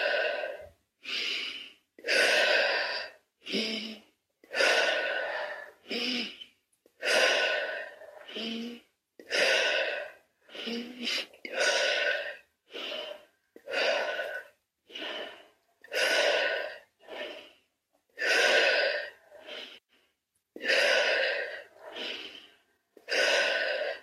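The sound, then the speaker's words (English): Rhythmic breathing exercise for the upper chakras, inhaling through the nose as the chin lifts and exhaling through the mouth as it drops: many loud, even breaths in a steady pattern separated by short pauses. “this sort of breath is very good for activating the upper chakras. And so you breathe in through the nostrils as the chin goes to the ceiling, and out through the mouth as the chin goes to the chest.”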